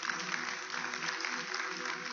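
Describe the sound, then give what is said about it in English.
Faint, steady applause from an audience at an Adventist church gathering, clapping for nine people who raised their hands, a soft continuous patter with no single loud claps. “Can I get a round of applause for my 9 people?”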